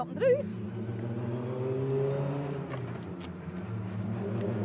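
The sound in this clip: Rally cars arriving at a time control, their engines giving a steady, loud droning hum with layered harmonic tones that swell slightly partway through and hold on to the end.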